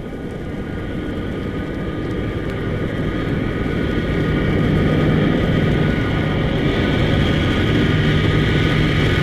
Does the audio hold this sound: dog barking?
no